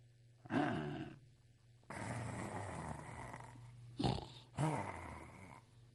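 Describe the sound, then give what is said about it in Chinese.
A man's voice imitates snoring during a Chinese comic storytelling performance, as a character falls asleep on the floor. Four rough, gravelly snorts come alone, the second long and drawn out, the last two short and sharp. “打着呼噜他睡着了。”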